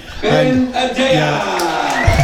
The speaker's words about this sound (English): A big cheer and the drums going here in Milebush.